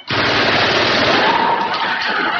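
A machine gun fires one sustained burst, spitting out hot empty cartridges: a loud, dense, rapid rattle that starts abruptly and holds at steady volume throughout, with no voices over it.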